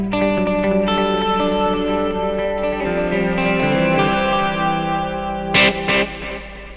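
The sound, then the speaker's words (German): A clean electric guitar plays sustained chords through reverb and delay effects, so the notes ring out and overlap as they shift slowly. Two short, bright bursts of noise come near the end. “Und dann habe ich das Gleiche eigentlich nochmal versehen, bloß mit Effekten. Also quasi Clean Sound mit Hallo Delay.”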